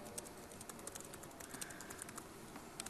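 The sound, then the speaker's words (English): Faint typing on a computer keyboard as a message is entered, with many quick, light key clicks in an irregular rhythm. “So then what I'm going to do now here is type in a message to this user who is Spanish.”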